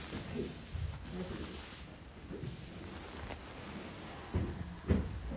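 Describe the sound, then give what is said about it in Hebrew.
A window is being closed in a room during a talk: low rustling and rumbling handling noise, then two dull knocks close together near the end. “כן, אתה יכול לסגור גם את החלון, רק לי קר, קר.”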